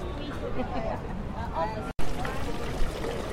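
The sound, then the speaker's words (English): Water from the fountain in a town's central square on the Amalfi Coast splashes and rushes steadily, partly masked by constant crowd chatter and nearby voices. “What you're hearing is the fountain in the center square.”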